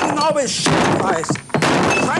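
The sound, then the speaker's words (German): A table is smashed: two heavy thuds land with cracking, breaking impacts amid loud talking voices. “Und deswegen mache ich jetzt hier diesen Tisch mal kaputt, ja?”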